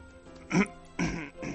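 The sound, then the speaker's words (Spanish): A person coughing: two short, rough bursts in quick succession, fairly faint, with no talk. “¿La tos? La tos, es que... es terrible.”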